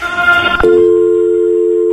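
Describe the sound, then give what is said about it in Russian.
A telephone call to a company's line: a short burst of music cuts off into one long, loud, steady tone that holds at a single pitch until the end. “Там сначала заиграла музыка, а потом долгий гудок.”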